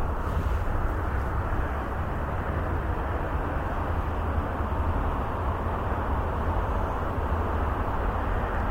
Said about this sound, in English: And here comes the train.